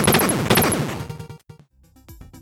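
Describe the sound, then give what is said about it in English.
Rapid 8-bit gunfire from the Batman game on the NES, a few quick buzzy blasts layered over chiptune music, then a sudden gap and sparser electronic effects. “You start firing right in front of you. It just takes one shot to waste the idiot coming towards you.”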